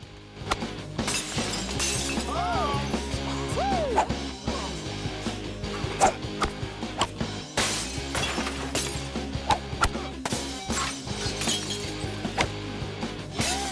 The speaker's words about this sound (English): hit golf balls towards the hotel, taking it in turns to smash the windows.